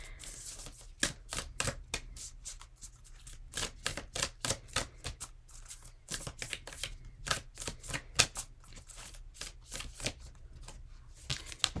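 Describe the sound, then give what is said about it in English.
Shuffling of a Rebecca Campbell Work Your Light oracle card deck: many quick, crisp riffles and taps in uneven bursts, fairly faint and without speech. “So I'm going to use the Rebecca Campbell Work Your Light Oracle card deck, which I'm sure you guys have all seen all over the place.”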